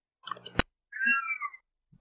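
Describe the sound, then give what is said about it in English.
A cat meows once from another room about 40 feet away, a faint, drawn-out cry lasting under a second, preceded by a few soft clicks. “The cat wants to get going, too. He is all the way in the other room, like, at least 40 feet away.”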